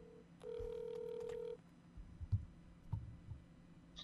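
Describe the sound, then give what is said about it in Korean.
A telephone line connecting for a call to Paju: a steady, faint, single-pitched tone lasting about a second, then a scatter of soft clicks and low thumps on a quiet line. “김한 기자 연결해 보도록 하겠습니다.”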